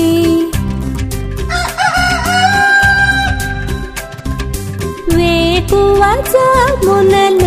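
Rooster crowing rides over a loud, busy song, with a couple of long wavering calls that rise and then hold, set against a steady beat and heavy bass.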